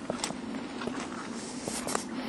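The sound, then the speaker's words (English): Footsteps of a person walking, a few soft, irregular steps heard faintly over a steady low background hiss and hum. “So yeah, I'm walking.”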